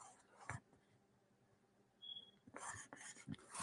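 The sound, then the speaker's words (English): Handwriting strokes: one short scratchy stroke, a quiet pause, then a cluster of brisk, rasping pen strokes near the end, all fairly faint. “I wonder, should I write that backwards?”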